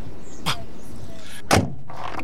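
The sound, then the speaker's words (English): Two sharp thuds come from the rear-hinged door of a fancy car, the second louder than the first, over steady background noise. “Okay, go ahead and get in the car. Thank you. The door opens backwards. Yeah. Oh my God, this is fancy.”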